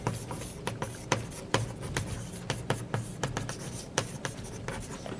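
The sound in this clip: Scratchy pen strokes of someone writing out a matrix by hand: many quick, faint scrapes and taps in an uneven rhythm, with no talking.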